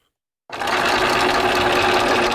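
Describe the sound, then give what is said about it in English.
A sewing machine runs while a Wichita woman sews ballet costumes, starting abruptly after a brief silence and holding a steady, dense mechanical whir with an even low hum throughout. “Jan Duran knows her way around a sewing machine.”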